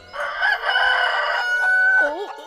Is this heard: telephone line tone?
no